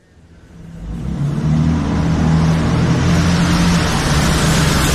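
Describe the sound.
Car engine noise while driving: a low, droning rumble that builds over the first second and a half, then holds steady and loud to the end, with no voices.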